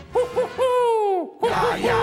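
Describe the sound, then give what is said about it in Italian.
Owls hoot in a run of short, hollow, tonal hoots. One long drawn-out hoot slides down in pitch at its end, and after a brief gap more short hoots follow over a steady low rumble. “Quanti gufi. Vedi, un sacco di gufi.”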